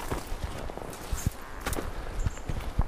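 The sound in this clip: Footsteps climb a steep forest path as a string of many uneven, soft crunching treads, irregularly spaced over a quiet background.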